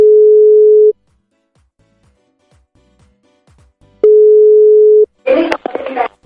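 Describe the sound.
Ringback tone on a telephone line while calling a number: two long, steady mid-pitched tones separated by a silent gap of about three seconds, then a voice briefly answers.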